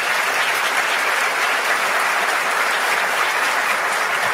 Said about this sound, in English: Give yourselves a round of applause for coming out there.